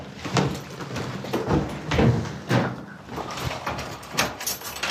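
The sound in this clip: Door being shut and locked: a few thuds and clunks, including a sliding scrape and rattling latch sounds, over a steady noisy background.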